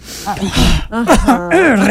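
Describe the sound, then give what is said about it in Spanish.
A woman's voice imitates her husband's heavy breathing noises, mixing breathy rushes of air with voiced, groaning tones that waver in pitch, loud and close. “respira duro.”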